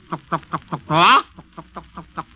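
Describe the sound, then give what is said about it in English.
Hens cluck in many quick, evenly spaced clucks, broken midway by a short, loud, harmonic crow from a rooster, after which the clucking carries on. “And then into it, this clucking of the hens, you hear a proud rooster crowing.”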